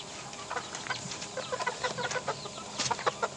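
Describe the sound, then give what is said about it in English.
Many chickens cluck in a small, crowded pen holding a mixed flock of white birds with red heads and mottled brown-and-white birds. Overlapping clucks and short squawks form a busy, steady chorus. No talking. “There seems quite a lot of birds for a small space.”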